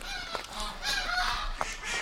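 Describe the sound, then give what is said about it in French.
Geese and a duck honk in reply while being fed, a few loud nasal honks breaking out at irregular moments over a continuous bed of softer calls, with no talk. “Le canard, les oies, tout le monde me répond.”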